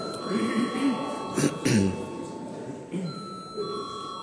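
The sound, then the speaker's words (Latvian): The chairperson's bell rings in parliament before a vote, a bright, sustained electric tone that runs under voices, with a short break partway through. “Paldies, lūdzu zvanu.”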